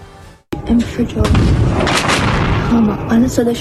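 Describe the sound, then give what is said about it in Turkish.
Series of explosions at different points in Iran, near the Strait of Hormuz: a sudden loud blast opens into heavy, continuous booming and rumbling, with a voice speaking over the noise. “Hürmüz Boğazı çevresi başta olmak üzere İran'ın farklı noktalarında peş peşe patlama sesleri duyuldu.”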